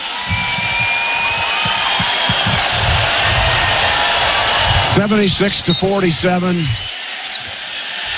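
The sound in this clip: A basketball is dribbled on the court during the closing seconds of a Nebraska NCAA tournament win, with repeated low bounces under loud, steady crowd roar and a burst of shouting voices near the end.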